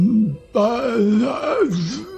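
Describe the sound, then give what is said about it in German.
A person's voice imitating a groan: a short low moan, a brief break, then a longer wavering groan that dips and rises in pitch, loud and alone. “Ihr hört aber auch zur gleichen Zeit ein Stöhnen”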